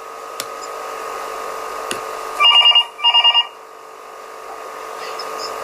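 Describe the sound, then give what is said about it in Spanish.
A telephone rings with an incoming listener's call: two short trilling rings, each a rapid burst of electronic pulses, sound over a steady background hum, then the line falls quiet again. “Me dicen en cabina que tenemos la llamada de una oyente que nos quiere contar un poco del tema.”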